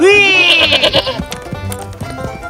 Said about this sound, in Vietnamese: Chờ chút, mày là con dê ngốc nghếch.